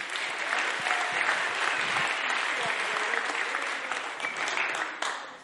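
Steady applause from a church audience welcoming a youth worker who comes up to read a testimony at a Daniel Fast gathering, an even wash of clapping lasting about five seconds before cutting off abruptly.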